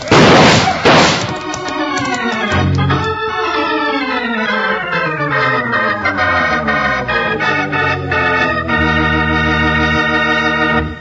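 Gunfire in a radio western drama: a couple of sharp, loud bursts right at the start, then a swelling orchestral music cue that fills the rest.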